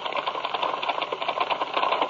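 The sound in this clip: Rapid typewriter typing: keys clatter in a dense, continuous run of fairly loud clicks with no pauses.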